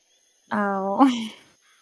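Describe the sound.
A person vocally imitates a bird call during a woods-magic scene, giving a single sustained, steady, hum-like tone that shifts briefly near the end and lasts under a second.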